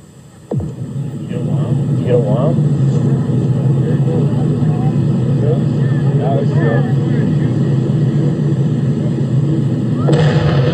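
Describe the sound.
An explosion blasts blubber across sand dunes crowded with spectators: a sudden boom breaks in, then a loud, sustained rumbling roar carries on under a speaking voice.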